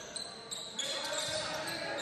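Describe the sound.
Basketball dribbling on a court during a college game, with faint bounces heard over a steady, busy arena crowd noise.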